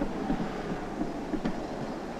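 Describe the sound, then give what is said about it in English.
Steady low rumble of a number 11 tram arriving at a stop in Dresden, with continuous rolling noise and a few faint clicks throughout. “The tram has just arrived at a stop. Some people are getting off.”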